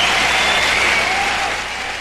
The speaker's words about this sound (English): Let's have a round of applause for Jeff Healey.